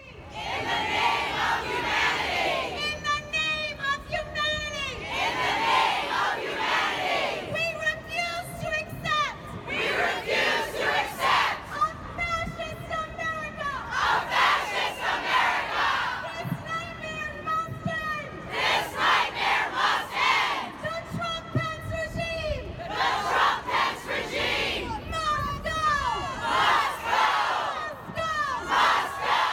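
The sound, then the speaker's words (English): A mass protest crowd in Philadelphia shouts at Vice President Mike Pence, loud chants surging in repeated regular bursts, with sustained crowd noise filling the gaps between them. “Those are the sounds of a mass protest that greeted Vice President Mike Pence in Philadelphia on Monday.”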